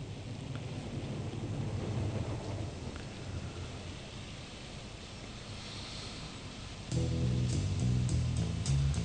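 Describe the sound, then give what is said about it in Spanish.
Steady rain hisses with low rumbling thunder during a thunderstorm, and near the end tonal music comes in over the rain. “vamos a arrancar igual tranquilitos con una lluviecita que va entrando por ahí, una tormenta, que no es la que se viene, esperemos.”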